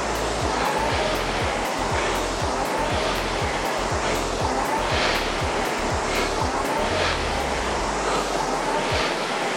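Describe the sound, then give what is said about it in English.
Exercise machine flywheel spinning steadily, a continuous airy whoosh with many regular low thumping pulses from repeated strokes, loud and even throughout. “top off the flywheel. Keep it spinning.”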